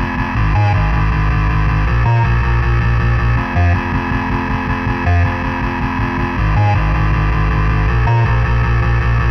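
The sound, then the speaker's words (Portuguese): Heavily distorted electric guitar played through a distortion pedal, a loud, thick chugging riff with low sustained chords broken by short rhythmic stops, with no talk over it. “Pedal de distorção.”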